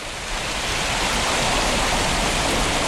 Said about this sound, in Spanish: Este es el sonido de las cascadas del nacimiento del río Cuervo.